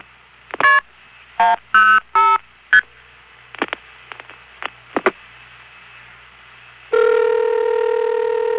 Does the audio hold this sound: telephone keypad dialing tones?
yes